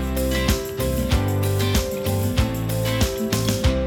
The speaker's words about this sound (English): So the stinger or the sting will sound something like this.